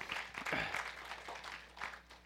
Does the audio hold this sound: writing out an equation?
no